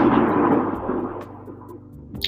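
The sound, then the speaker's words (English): Thunder: a loud, broad rumble that starts strong and slowly decays over about two seconds, fading to a low grumble. “That's a thunder and lightning.”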